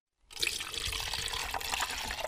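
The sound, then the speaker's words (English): Non-toxic liquid antifreeze pours into an insect collection jar, starting after a brief silence as a steady, splashy stream that keeps an even level to the end. “filling an insect collection jar with non-toxic antifreeze”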